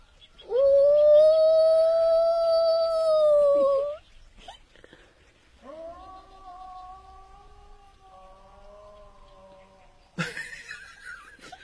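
A person imitates a wolf cub's howl with two long, steady-pitched cries, the first loud and sustained, the second quieter and lower.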